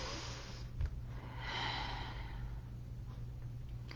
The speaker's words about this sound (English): take a nice deep breath.